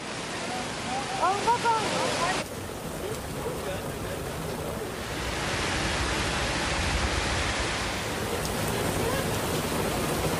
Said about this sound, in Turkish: Bir anda bastıran sağanak İstanbullulara zor anlar yaşattı.